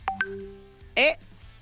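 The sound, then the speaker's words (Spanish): An incoming telephone call signals with short electronic tones: two quick faint beeps, a held low tone, then a brighter warbling burst. “Aguanten ahí, a ver, espérame, que... es que está entrando... una llamada telefónica.”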